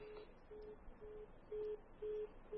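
Telephone busy tone after a caller's line has dropped: six short, evenly spaced, steady beeps at one pitch, the last three louder, over a faint hiss.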